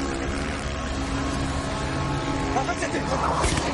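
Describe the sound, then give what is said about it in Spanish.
A motorcycle engine accelerates along a seaside promenade during a film car chase beside a Volvo and a BMW. The engine drones steadily and loudly, with a busier burst of engine noise near the end. “El motorista acelera por un paseo marítimo y apunta al Volvo con una pistola.”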